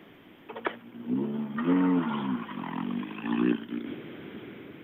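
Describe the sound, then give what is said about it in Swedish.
A Volvo 940 rally car rolls in, its engine note surging through several revving bursts that rise and fall in pitch, moderately loud over quiet background. “Nummer 38, Kent Nordqvist, rullar in här också. Mm i sin Volvo 940”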